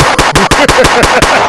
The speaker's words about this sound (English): Shots rang out at the Laugh Factory.